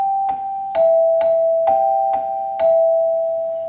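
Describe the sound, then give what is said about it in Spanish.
Six struck notes ring out on a metallophone with metal bars, each strike bright and evenly spaced, with long shimmering sustain that carries under the following strikes and fades slowly after the last. “Este es un metalófono.”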